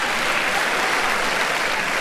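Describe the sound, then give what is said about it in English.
An audience applauds as the women in the crowd clap together. The clapping is dense and steady and fills the whole moment at an even loudness, with no talking over it. “Was there even any difference in the applause?”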